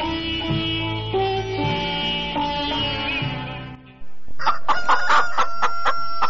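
Chickens crowing and clucking: a long, wavering harmonic crow that lasts about four seconds, followed by a sudden burst of many quick, loud clucks.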